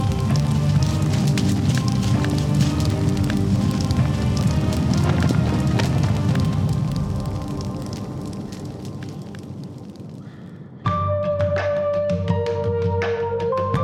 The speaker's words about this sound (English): he means the tent is on fire!